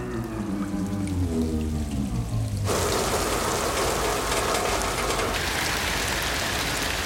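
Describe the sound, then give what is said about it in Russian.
Water pours from a ceiling onto old rusty turbine units in a dam's turbine hall. A loud, steady rushing spatter starts abruptly after a few seconds of low droning tones, then continues unbroken to the end. “В турбинном зале вода льется с потолка на старые ржавые агрегаты и вырывается потоком из замерзших турбин.”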